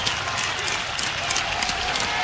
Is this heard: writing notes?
no